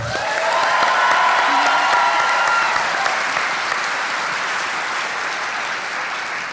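Audience applause, a dense and steady sheet of clapping that swells quickly, holds, then eases gradually as it continues.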